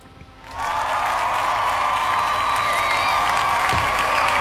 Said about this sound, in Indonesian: Oke lah, kita kasih tepuk tangan ya.